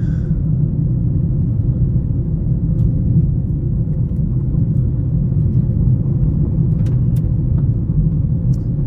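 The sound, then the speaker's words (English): A car driving, heard as a steady low engine and road rumble that runs unbroken and fairly loud for the whole stretch, with no voices. “I'm driving.”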